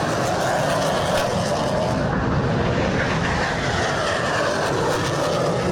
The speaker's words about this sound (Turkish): Gökyüzü önce Gökbey'in pervane sesleriyle yankılandı, Hürkuş ve Hürjet peş peşe havalandı.